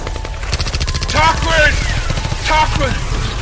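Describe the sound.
Gunfire in a rapid stream of sharp cracks lasting a few seconds, loud and continuous, with shouting voices over it.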